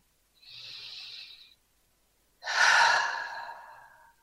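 Two slow, deep breaths are drawn alone with no talk: a soft, airy first breath is followed after a pause by a louder, fuller breath that trails off gradually.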